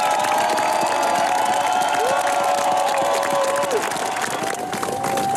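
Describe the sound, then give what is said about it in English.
A crowd cheering and applauding as Norway's new King Haakon, Queen Mette-Marit and the royal family step onto the Oslo palace balcony after the old king's funeral, a dense continuous roar with sustained shouts rising above it. “This is the kind of welcome the new king, Haakon VIII, Queen Mette Marit and the rest of the royal family get as they've just stepped out onto the palace balcony here in Oslo at the end of the old king's funeral.”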